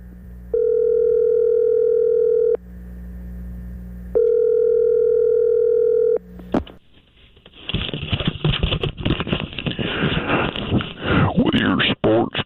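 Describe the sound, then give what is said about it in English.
A telephone line rings while dialing a sports hotline number, with two long steady ringback tones separated by a pause, then a burst of crackly, busy line noise as the call connects. “why don't you dial Ed Carter's Sports Hotline? It's usually got an HSO or two.”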